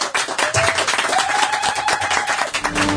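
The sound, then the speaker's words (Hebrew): A big crowd claps on cue for the microphones, a dense, loud, sustained burst of applause that holds at full strength for the whole stretch. “נפתח את המיקרופונים לשמוע כפיים פה של החבר'ה. תנו כפיים, חבר'ה.”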